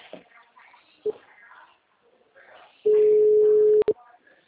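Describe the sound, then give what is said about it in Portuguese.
A telephone call being dialed: a short beep, then a steady mid-pitched tone lasting about a second, ending in another short beep, with faint talk before it. “Vou ligar para ele, pedir o endereço.”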